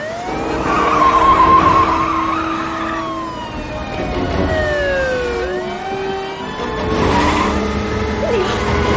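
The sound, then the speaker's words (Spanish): Tires squeal as a car skids out of control during a police chase and veers toward the road shoulder. Long squealing tones slide up and down over a loud, continuous engine roar, with siren-like wails mixed in. “el vehículo se descontrola girando hacia el arcén. Choca contra una señal y el coche cae unos metros por un terraplén hasta que logra frenar.”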